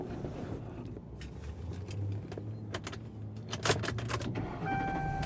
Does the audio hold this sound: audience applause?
no